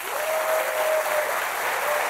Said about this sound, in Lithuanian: Norėčiau pakviesti ir paprašyti čia susirinkusių žmonių plojimui, mano svečiui, arkivyskupui Gintarui Grušui.